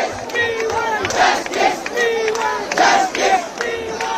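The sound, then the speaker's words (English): Crowd chanting at a large youth-led Cockroach Movement protest in Delhi, held despite a police crackdown: many voices shout in unison in loud, rhythmic, repeated phrases with brief dips between bursts. “Sounds of defiance organised by the youth-led and memorably entitled Cockroach Movement, the CJP.”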